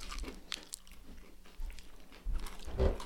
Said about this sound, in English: But I was disappointed when I bit into this, and there's not Reese's peanut butter in it.